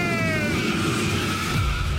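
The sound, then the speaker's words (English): Race car tires skidding with engine noise: a loud, continuous screeching roar held for about two seconds, with a thin whine dropping slightly in pitch early on. “Start your engine!”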